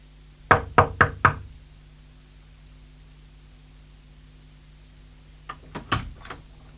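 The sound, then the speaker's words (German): Knocking on a door: four sharp, quick knocks in a tight burst, a long pause, then a few softer knocks in a second group, heard over a steady low hum with no voices. “Ich habe geklopft, Sie haben offenbar nichts gehört.”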